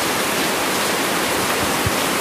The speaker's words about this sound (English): Πολύ βροχή. Παναγία μου. Okay, I'm starting to get wet even though we're here under